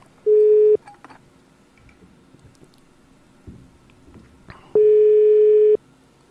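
Ringing tones of an outgoing telephone call: two steady, buzzy mid-pitched tones, a short one and then a longer one about four seconds later, with faint background noise between them.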